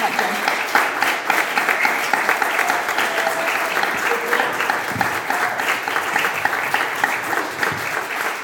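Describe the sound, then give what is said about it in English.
An audience applauds to welcome a speaker onto the stage at a concert show. The clapping is sustained and dense, rolling on evenly for over eight seconds with a few sharper claps standing out. “we should not only welcome her with a big round of applause”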